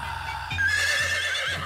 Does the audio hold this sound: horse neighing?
yes